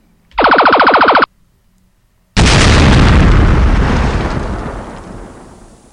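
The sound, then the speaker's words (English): A video game's space junk being blasted: a buzzy, rapidly pulsing synthetic zap, a short pause, then a loud noisy explosion that bursts in and slowly fades away over several seconds. “Good shooting. You vaporized the junk. You blasted your path clear.”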